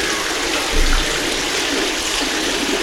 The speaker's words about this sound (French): on remplit les vases, on remplit une, là, il y a l'eau chaude.